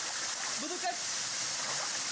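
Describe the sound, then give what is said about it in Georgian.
Thermal spring water heated by volcanic magma splashes and rushes at a mineral spring in Alajuela province, Costa Rica. The steady hiss of water runs throughout, with a faint voice briefly heard over it. “ვულკანური მაგმა მიწის ქვეშა წყლებს ათბობს და სასარგებლო მინერალებით აჯერებს. ამბობენ, რომ ეს წყალი ყველაფრის მკურნალია. ამ წყაროში გავჯანსახდები.”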